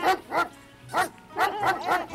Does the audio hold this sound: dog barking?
yes